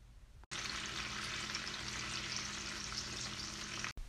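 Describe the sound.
Bacon frying in a pan gives a steady, dense sizzle that holds at an even level throughout, with two brief cut-outs near the start and the end.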